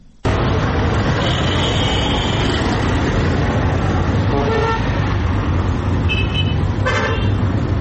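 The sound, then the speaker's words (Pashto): Busy large passenger bus terminal in Quetta: a dense, steady roar of traffic and engines, with a few vehicle horn toots, one long and several short. “دا په کوټه کې د مسافرونکو بسونو یو لوی اډه ده چې لدی ځای هر ورځ په سلګونو لوی او واړه مسافرونکي موټران د هیواد بیلابیلو ښارونو ته”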